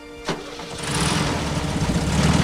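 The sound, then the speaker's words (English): A truck engine cranks to life with a short sharp starting burst, then settles into a rough rumbling run that swells louder as the vehicle drives away, with no voices. “In the dark, the TV repairman is sitting in his truck outside David's real house. He smiles to himself and drives away.”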